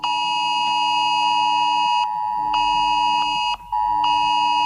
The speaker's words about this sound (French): Le dispositif FR Alert a été testé sur le territoire.